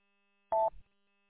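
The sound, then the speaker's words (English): A telephone being dialed for a call: one short, clean keypad beep followed by a soft clunk, then quiet. “I'm going to make a phone call and see what the heck's going on over here.”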